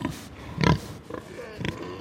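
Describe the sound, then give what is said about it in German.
Pig grunts and snorts as a boar and a sow sniff each other at a breeding station, the boar drooling and strong-smelling; a few short, rough grunts and nasal bursts come in quick succession. “Eber und Sau beschnuppern sich. Der Eber riecht stark. Er sabbert. Das gefällt der Sau.”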